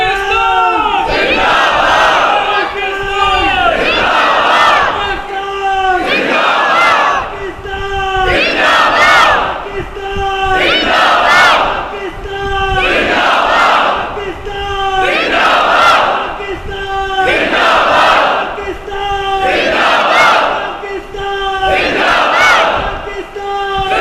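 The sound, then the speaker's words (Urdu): A large crowd chants religious slogans in call and response at a gathering honoring Ahl al-Bayt. A few voices lead and a massed roar answers, in repeated rounds about every five seconds, loud and steady. “لہٰذا میں گزارش کروں گا کہ چند جوان یہاں سے نعرہ لگائیں اور آپ جواب دیں”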